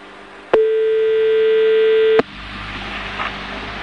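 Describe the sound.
A telephone ringback tone plays as a single long, steady, unbroken note before the call is answered. It is followed by a low, faint line hiss.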